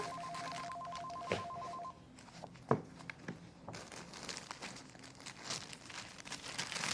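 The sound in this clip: A telephone rings in a home during a drama scene, with a bright pulsing tone repeating for about two seconds before it stops, followed by soft rustling, crinkling and a few sharp knocks.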